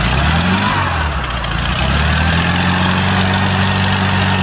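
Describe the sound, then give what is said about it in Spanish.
A Volkswagen Beetle engine and its turbine while the gears are shifted: a loud, low, steady engine drone with a brief dip in tone, then an even hum that carries on alone. “El Bocho conserva un sonido peculiar que le recuerda a sus hermanos mayores, y es el sonido que hace la turbina cuando se embraga de una velocidad a otra, y esta rebufa por el aire y el freno del motor.”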